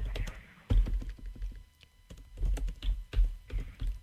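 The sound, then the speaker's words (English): Someone types on a computer keyboard in irregular bursts of soft, quick keystrokes, with short pauses between the flurries. “let me just see if I can type this one in. Hold on one minute.”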